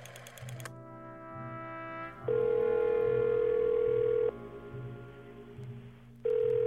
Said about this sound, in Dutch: Ik denk dat hij een keer of zes echt wel overging.